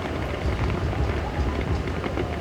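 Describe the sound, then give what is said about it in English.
Heavy rain pours down on the pitch during a professional soccer match, a dense, steady hiss that holds at an even level throughout with no clear breaks and no talk. “Never really can get used to it when it's as heavily pouring down as it is right now. You can hear it in our crowd mics.”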